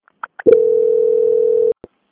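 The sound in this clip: Telephone call-transfer tone: a few short clicks and beeps, then one steady, loud mid-pitched tone held for just over a second, ending with a brief click.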